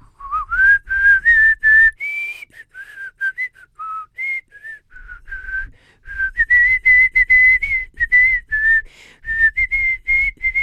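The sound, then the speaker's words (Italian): A person whistles the Marseillaise, a clear, bright melody of many short and held notes in phrases broken by brief pauses, loud and alone without any talk. “Viene proprio voglia di fischiare la Marsigliese.”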